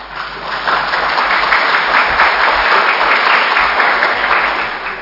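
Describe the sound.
Applause from an audience at a Žižkov fire brigade gathering: dense, even clapping that stays loud and steady for about five seconds and eases slightly at the end.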